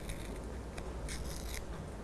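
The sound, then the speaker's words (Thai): Paper slowly torn by hand makes a faint, steady, crackling rip over a soft hiss, with a few brighter bursts along the way and no voices. “ค่อยๆฉีกเลยค่ะค่อยๆขยับมือหรือว่านิ้วมือของเด็กๆเข้าหาตัวเองแบบนี้เลย”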